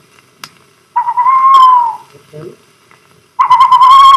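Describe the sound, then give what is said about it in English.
Barn owl call: two loud, drawn-out tonal cries with a slightly wavering pitch. The first lasts about a second and the second is cut off at the end, with a few faint clicks in the quiet gap between. “Here's some simple calls of the wild. The calls of hoolets. Here's a barn owl.”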